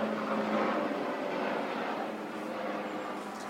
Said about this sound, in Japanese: ちょっと待ってね、今ヘリコプター来てるから